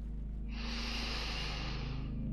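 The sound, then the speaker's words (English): A deep belly breath drawn in during a guided relaxation exercise: one long, steady, breathy inhale lasting about two seconds, over a low constant hum. “Big belly breath in,”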